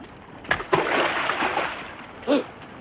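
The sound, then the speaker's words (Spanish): A stone thrown into a river lands with a few brief splashes, sharp watery bursts over a steady hiss of background noise. “lanza una piedra al río.”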